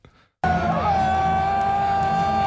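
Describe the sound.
A festival crowd cheering and yelling at a rock festival, breaking in abruptly after a brief quiet moment as a loud, dense, sustained roar of many voices, with held tonal shouts running through it.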